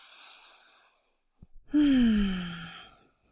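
A deep breath taken during a guided exercise: a brief quick inhale, then a long voiced sighing exhale that slides downward in pitch and fades.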